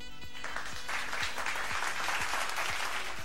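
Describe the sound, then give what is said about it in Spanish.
Audience applause after a lecture at a national library, dense steady clapping sustained at an even level for the whole stretch, with no voices on top. “Un aplauso más para Escala”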